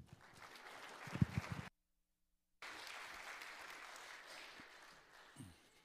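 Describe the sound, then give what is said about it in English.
An audience applauds to welcome a guest speaker at a church gathering. The dense, steady clapping breaks off for about a second of silence, then resumes and gradually thins out. “Let's give him a hand.”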